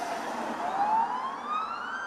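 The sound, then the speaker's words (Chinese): A fire engine's siren sounds at an emergency scene as the truck arrives. It is a steady, piercing wail whose pitch sweeps upward with ringing overtones, at an even, fairly loud level with no talk. “我们可以听到现在现场有消防车正在马上的过来”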